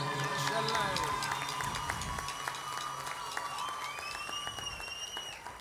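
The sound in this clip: Concert audience applause for an orchestra's electric guitarist: a full, steady clapping sound continues throughout, with a voice talking over it.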